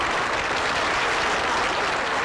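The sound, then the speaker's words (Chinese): Warm applause from the audience at a Chinese political party meeting, a dense, even roar of many hands clapping that holds steady at full strength for the whole stretch, with no voices over it. “一片热烈的掌声”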